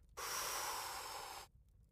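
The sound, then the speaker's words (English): A single deep breath drawn in, a steady airy rush lasting a little over a second, heard alone with a soft fade at the end. “Let's take in a deep breath.”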